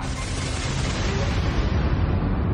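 A bomb explosion sound effect in a radio news jingle booms as a loud, broad rumbling blast that holds steady, its bright hiss slowly dulling toward a deep roar.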